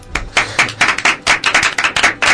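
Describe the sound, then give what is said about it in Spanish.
Applause for Ubisoft comes from a few people as many quick, sharp claps in an uneven rhythm, loud and close with no talk over them. “Quiero que le deis un aplauso a Ubisoft.”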